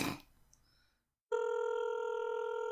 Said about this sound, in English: It's phone ringing. That's the phone ringing.